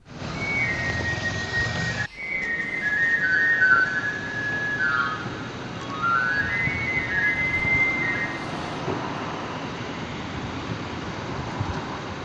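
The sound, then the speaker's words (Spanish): A knife grinder's whistle sounds in the traditional Adurza neighbourhood of Vitoria-Gasteiz, playing several bright, high runs of notes that glide up and down over a steady, wind-like hiss. “Es, Patxi, el sonido de un afilador.”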